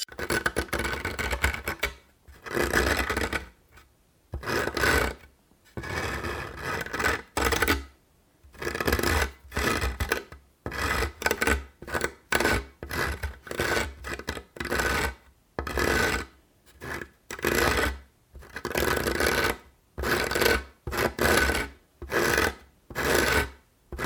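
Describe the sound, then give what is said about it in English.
Rough rasping scrapes along a barrel repeat in many rhythmic strokes separated by brief pauses, harsh and gritty, with no voices. “The sound of the barrel being scraped. If I can find that in the YouTube media library, I'll probably add the sound of a barrel genuinely being scraped.”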